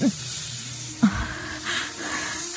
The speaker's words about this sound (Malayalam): ഇത് പാമ്പിഴയുന്ന ശബ്ദ. ഓ ശബ്ദം കേട്ടാൽ അറിയാം, വലിയ പാമ്പ് തന്നെ.